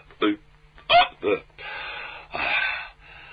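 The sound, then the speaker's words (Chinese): A voice imitates the hiccups of someone who has overeaten: three short, sharp hiccup bursts, then two longer breathy, sighing sounds. “这位撑的直打嗝”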